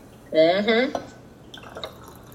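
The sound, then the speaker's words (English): Liquid pours into glasses as a watered-down drink is filled to the brim, with a brief, ringing pour followed by a few light drips and clinks. “Get that watered down drink. We're filling our glasses to the brim here.”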